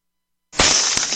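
A metal-and-glass object shatters on hitting the ground, a sudden loud bright crash after silence that rings on as sustained noise, with a second sharp hit near the end.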